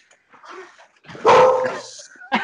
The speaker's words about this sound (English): dog too. The dog back there.